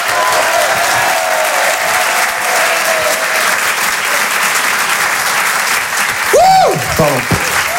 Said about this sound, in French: Je vous demande de l'encourager. Faites un maximum de bruit, s'il vous plaît, pour Clément Kersual.